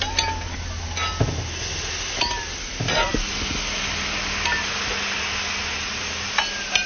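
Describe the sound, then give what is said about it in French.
Shredded, slow-simmered bull meat sizzles steadily as it is reheated on a griddle with its juice. The hiss runs throughout, broken by a few sharp metallic clinks and taps. “On l'a réchauffée sur la planche et on va rajouter un peu de son jus.”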